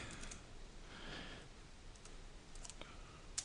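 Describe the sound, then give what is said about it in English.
Keys tapped on a 1980 home computer keyboard while a BASIC program is typed in, a quiet scatter of light, irregular clicks over a soft background hiss. “I can program in BASIC, so I can type in something like hello PDC”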